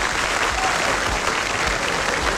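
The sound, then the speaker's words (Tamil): Audience applause at a televised music show after a song, a dense steady wash of clapping hands at even loudness for its whole length, with no voices standing out. “அவருக்கு ஒரு பெரிய பலத்த கைத்தட்டல் கொடுத்துடலாமா?”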